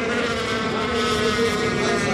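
Racing motorboats roar off the start of a heat at a European powerboat championship in Chodzież, Poland, a steady, dense engine drone with a buzzing harmonic whine that holds without a break.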